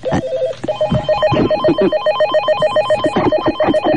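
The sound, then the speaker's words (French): A telephone rings at a switchboard, its loud electronic bell repeating a quick warbling pattern of bright tones throughout, with no talk over it. “Mais avant, j'ai un coup de fil à passer, ah, où j'ai reçu un coup de fil. Voilà, je m'approche vers le standard.”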